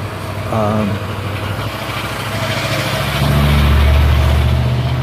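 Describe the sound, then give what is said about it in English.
Low, steady engine rumble of a noisy truck passing outside, growing louder toward the end, with a brief voice near the start. “good morning, noisy truck.”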